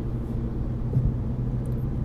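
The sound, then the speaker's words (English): Cars drive along a freeway at about 60 mph, making a steady, low traffic rumble that holds even throughout with no voices. “Cars driving 60 miles per hour on the freeway, that's fun.”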